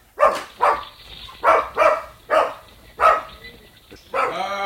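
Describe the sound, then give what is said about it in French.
A dog barks in a run of sharp, loud bursts, with several barks in an uneven rhythm and a longer sustained one at the end. No voices are heard over it. “Tenez, voilà maintenant Diogène qui aboie.”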